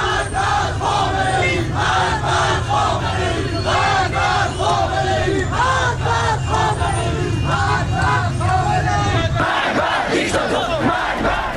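A large crowd chants "death to Khamenei" in Iranian streets, loud, rhythmic, repeated shouted phrases running throughout, with the dense low crowd rumble thinning near the end.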